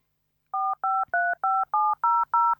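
Keypad tones as a telephone number is dialed: seven short, evenly spaced electronic beeps with slightly varying pitch, clear and loud against silence.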